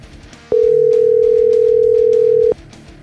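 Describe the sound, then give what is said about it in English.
A single steady electronic ringing tone from an outgoing telephone call: one unbroken mid-pitched beep lasting about two seconds over a faint background bed. “So let me give Keith a call real quick and see how he's doing today.”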